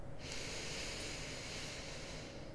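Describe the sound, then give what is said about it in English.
A slow cleansing inhalation through the nose during a relaxation exercise: a steady, airy hiss that swells in and holds for about two seconds, faint and alone without talk. “And take a cleansing inhalation through the nose”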